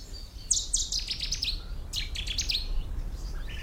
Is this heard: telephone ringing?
no

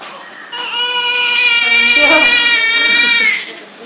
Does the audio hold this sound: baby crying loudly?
yes

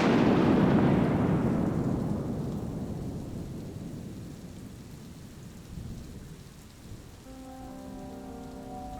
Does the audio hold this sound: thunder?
yes

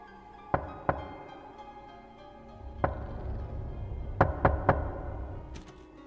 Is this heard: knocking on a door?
yes

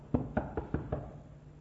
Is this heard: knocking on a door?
yes

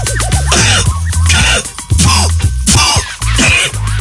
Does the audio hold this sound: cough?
yes

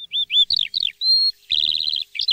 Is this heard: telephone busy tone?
no

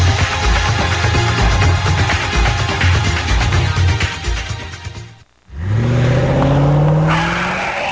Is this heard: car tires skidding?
yes

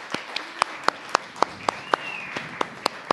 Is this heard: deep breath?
no

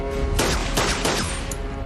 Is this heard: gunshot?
yes

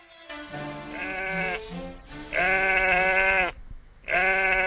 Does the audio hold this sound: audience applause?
no

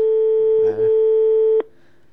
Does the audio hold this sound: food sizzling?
no

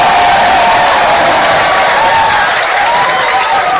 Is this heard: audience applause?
yes

